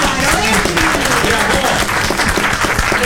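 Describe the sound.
Studio audience applause on a television game show, loud and dense with steady, irregular clapping. Voices mix in with the clapping.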